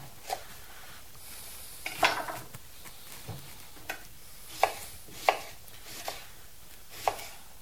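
A knife chops chard on a cutting board in quiet, irregular taps, a few close together, then spaced strikes with pauses between them, over soft background noise.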